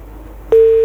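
A telephone busy tone after a call drops: one short, steady, mid-pitched beep that stands out over a low, constant hiss.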